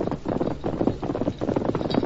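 Horse hooves galloping along a trail, a steady drumming patter of many quick beats that continues evenly throughout with no voices.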